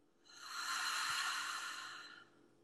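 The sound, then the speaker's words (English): A single slow, deep breath drawn in through the nose during a guided breathing exercise: a soft, airy hiss that swells, holds steady for about two seconds, then tapers off. “Another slow, deep breath in through the nose, just like that. And empty.”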